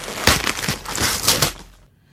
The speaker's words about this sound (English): Ooh, yeah, I got a lot of things in here. I finally got them unwrapped.